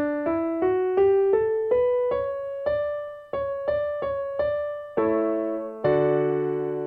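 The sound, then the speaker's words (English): A musical scale played as clear, decaying single notes that climb step by step, closing on two fuller, sustained chords at the end. “Now, when we play that as a scale, it sounds like this.”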